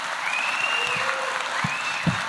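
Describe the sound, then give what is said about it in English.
A theater audience applauds, giving soft, steady clapping that stays fairly even through the short stretch. “In the theater, applause is encouraged.”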